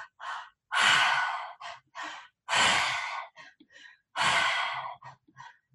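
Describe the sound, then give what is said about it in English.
Loud mouth breathing shows a three-part breath: belly inhale, chest inhale, then exhale out the mouth. Three long, forceful, airy rushes are each set among shorter puffs, with no talk. “it's a three-part breath only through the mouth. So the first breath is with the belly and then the chest and then out through the mouth. So it sounds like this.”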